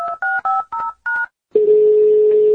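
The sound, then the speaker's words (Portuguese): Telephone dialing tones: five short, evenly paced tone pairs beep in quick succession, then a pause and a single steady, lower tone that holds on unbroken. “Vamos ligar de novo”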